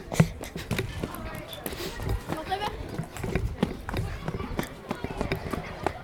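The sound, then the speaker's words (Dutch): Footsteps of someone running: many quick, sharp steps in an irregular patter, mixed with voices talking. “Ik ren er even naartoe.”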